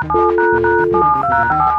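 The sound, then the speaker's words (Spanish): Telephone keypad tones as two phones are dialed at once for a radio prank call, a quick run of short electronic beeps at shifting pitches over a steady underlying tone, loud and without speech. “vamos a marcar. Márcale tú acá, yo acá.”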